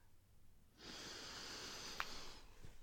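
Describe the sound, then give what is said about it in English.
A slow, deep breath drawn in: after a short quiet pause, a soft, airy hiss starts and holds steadily for about two seconds, faint and alone. “Let's take some deep breaths together. In.”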